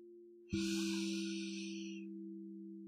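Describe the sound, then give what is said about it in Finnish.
A slow inhale through the nose during a guided breathing exercise: a soft, airy hiss that swells suddenly and fades over about a second and a half, over a low, steady sustained tone. “Hengitä sisään nenän kautta.”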